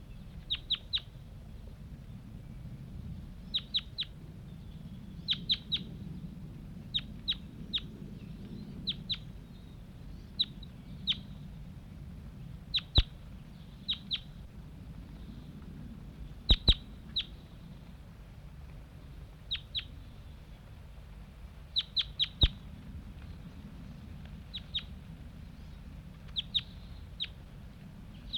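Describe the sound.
Wild birds that have just flown off from a net site give sharp, high chirping calls. Many brief notes come in short clusters at irregular intervals over a low, steady background rumble.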